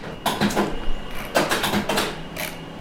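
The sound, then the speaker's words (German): A printer runs a new dataset printout in a small university office, giving a few bursts of whirring, clattering mechanism noise with brief pauses between them and no voices. “An der Universität Danzig druckt Dr. Renata Orwowska einen neuen Datensatz aus.”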